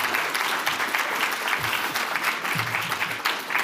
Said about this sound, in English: So please put your hands together and help me welcome Dr. Jen Parker to the podium.